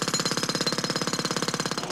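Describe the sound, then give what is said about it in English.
A road drill hammers away in a rapid, even stream of loud percussive blows with a harsh rattling edge, keeping the same steady pace throughout. “a road drill 7 metres away”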